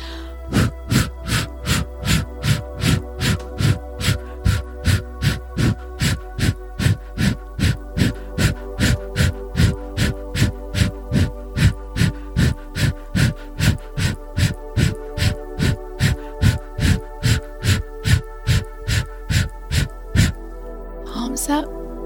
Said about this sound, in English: Take a big inhale through the nose, 50 times, here we go.